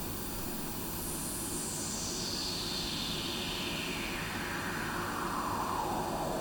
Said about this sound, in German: jetzt haben wir ein Filter mit einer Resonanz, die einen bestimmten Teilbereich des Spektrums jetzt überbetont. Das heißt, wir hören immer noch das ganze Rauschen